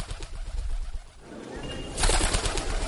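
Pigeon cooing as the bird lands nearby, a few low, soft coos in a steady rhythm, then a brighter burst of sound in the second half.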